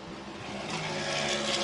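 An Acura prototype race car pulls away from a pit stop with its tires smoking. Loud, gritty engine noise with a steady tone grows louder and brighter as the car rolls back onto the track.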